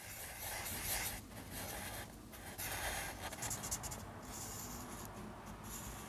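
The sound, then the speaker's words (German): A sketch being drawn on paper, heard as a continuous soft, rasping scratch of strokes rubbing across the page, faint and steady with no voices. “Ich mache jetzt eine Zeichnung von das Skelett, was ich gefunden hatte am Strand.”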